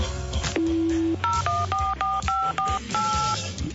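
Mobile phone keypad tones as a number is dialed: a long low steady beep, then a quick run of short two-note tones at varying pitches, over a busy background of other sound.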